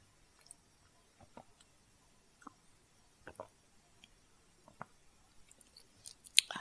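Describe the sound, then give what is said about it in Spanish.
Faint wet mouth sounds of someone drinking banana milk: a few soft sips, swallows and small clicks spread over several seconds, with a slightly louder one near the end. “Ahora voy a tomar un poco de leche.”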